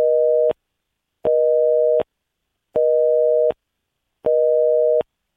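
Telephone busy signal after a caller disconnected from a call-in line: four evenly spaced, steady mid-pitched tone bursts with equal silent gaps between them, loud and alone.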